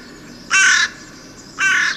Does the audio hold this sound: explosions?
no